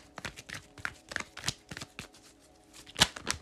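Tarot cards are shuffled by hand, giving many crisp taps and papery flicks in an irregular rhythm, with a louder snapping burst near the end.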